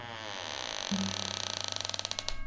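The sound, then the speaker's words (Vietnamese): A house's back door creaks open: a quiet, drawn-out creak that breaks into a long run of rapid, evenly spaced ticking pulses, like a dry hinge grinding slowly. “Cánh cửa nhà sau được mở ra, tạo nên một âm thanh ken két khi nó cắn vào không gian yên tĩnh.”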